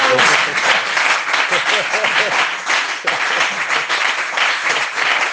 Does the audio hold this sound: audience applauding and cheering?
yes